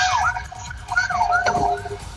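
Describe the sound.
A police patrol car siren wails during an emergency response to a fire at a supermarket, its tone sweeping up and down repeatedly over a rumbling, noisy background.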